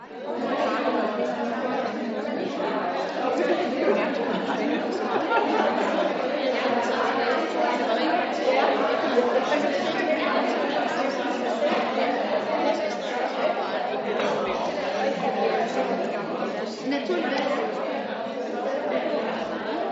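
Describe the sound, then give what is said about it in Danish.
Lively chatter from a group of people, many voices talking over one another in a continuous, even murmur for the whole stretch, with no single voice standing out. “Nå, sikke en livlig snak.”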